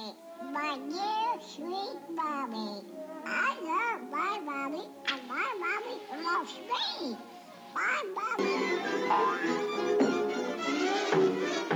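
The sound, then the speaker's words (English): Baby ducklings call from a video in many quick, bright, high-pitched peeps and quacks that bend up and down in pitch, followed by a steadier hiss of background noise toward the end. “we can learn from the baby duckling. There's a short video. I want you to just watch it real quick.”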